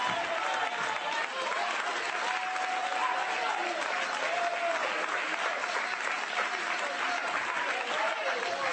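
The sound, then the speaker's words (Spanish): Applause from a church audience during a sermon, a steady dense wash of clapping that stays loud and even throughout with no voice over it. “Aplauda si no aplaudís, si no aplaudo yo.”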